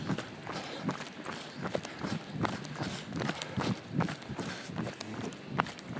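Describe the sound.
Footsteps of a triathlete on a training run, heard as a quick, even rhythm of many light footfalls at a fairly faint level.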